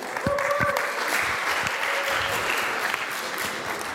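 An audience applauds in a steady, dense patter of many hands clapping, holding an even level from start to finish.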